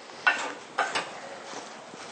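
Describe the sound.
Spoon stirring tofu with brown sugar in a pan: a few quick scraping strokes against steady background hiss.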